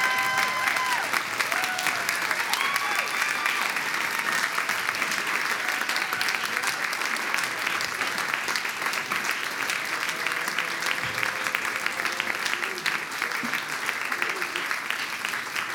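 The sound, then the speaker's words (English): Audience applause welcoming Dr. Cornel West at a Seattle event: a loud, steady wash of clapping from a large crowd that lasts throughout, mixed with crowd voices. “Will you put your hands together and give a big old Seattle welcome to my friend and my brother, Dr. Cornel West.”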